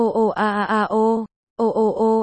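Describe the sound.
A woman cries and moans in pain, with voiced, wavering sobs in a quick run of short pulses, a brief silence, then more moaning, with no other sound.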